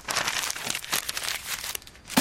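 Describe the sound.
Paper is crumpled in many crisp, irregular crackles and crinkles that come in quick bursts throughout, moderately quiet, with no voices.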